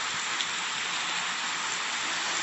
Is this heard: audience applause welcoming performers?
no